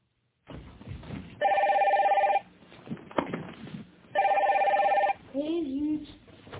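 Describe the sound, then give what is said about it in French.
A telephone rings twice in long electronic bursts, a bright warbling bell tone with a short gap between rings, and a voice speaks right after the second ring. “Écoutez Mireille qui répond au téléphone”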